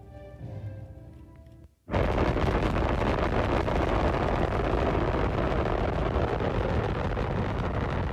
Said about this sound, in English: you'll see the flame come out, and the rocket motor plume come out. And you might say, "Well, that's not very impressive." Six, that's because you haven't heard the sound yet. 4, 3, 2, 1, fire.